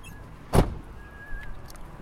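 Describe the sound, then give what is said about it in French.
A single heavy car-door thunk as someone gets out of a car, a short dull thud standing alone, followed by quiet low background hum and a faint thin whine. “on descend de la voiture.”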